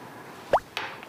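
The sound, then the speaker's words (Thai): Small liquid plops as vinegar goes into pickled plums while making chrysanthemum tea: two short, wet drips close together, with a fainter tick after them over a quiet background. “เราก็เลยใช้บ๊วยดองแล้วเราก็ใส่น้ำส้มสายชูลงไป”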